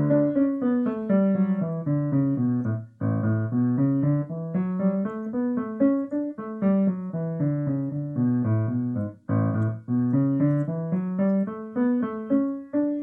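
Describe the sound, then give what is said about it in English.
A running bass line is played on its own as a continuous stream of low, moving notes. It holds a steady, even pace, with a couple of brief breaks in the flow. “And the running bass line sounds like this.”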